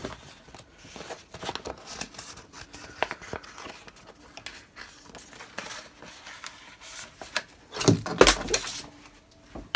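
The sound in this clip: Faint snipping and crinkling as material is cut away to be reused, irregular soft rustles and small clicks scattered throughout, with a louder cluster of sharp crackles near the end.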